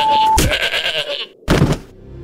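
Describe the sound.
A goat bleats: one long, wavering, nasal bleat, then after a short gap a second, harsher and shorter cry, both loud and alone.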